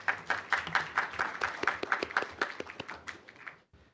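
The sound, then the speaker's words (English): Applause breaks out at a committee meeting, a lively burst of many quick hand claps that gradually thins and then stops just before the end. “not only are we applauding my chairmanship, but I applaud all of you who have been a part of this to help get this all done”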